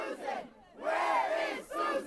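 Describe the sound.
UConn students and faculty chanting together at a protest march: loud crowd voices in rhythmic chanted phrases separated by short pauses, the last phrase cut off.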